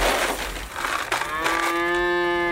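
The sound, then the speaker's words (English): Cows mooing on a farm that also keeps goats and chickens: a long, loud, low moo that settles into a steady sustained tone over rough background noise. “Chris runs a farm featuring an assortment of goats, chickens, and cows”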